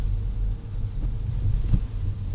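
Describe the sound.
A private car driving around Seattle, heard from inside the cabin: a steady low engine and road rumble, continuous and fairly loud, with no voices.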